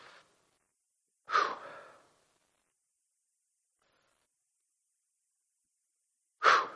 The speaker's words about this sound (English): I just got to take a breath.